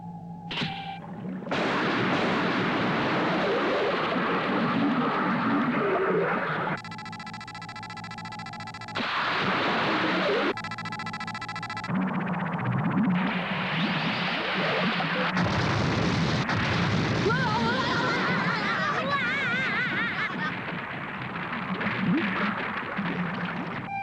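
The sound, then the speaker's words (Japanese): Torpedo launch and explosions in an attack: a dense, continuous roar of booming blasts and rumbling bursts that barely lets up, with buzzing, pulsing passages in between. “よし、攻撃開始。 魚雷発射。 発射。”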